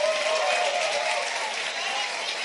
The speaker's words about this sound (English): Clap for Milvet.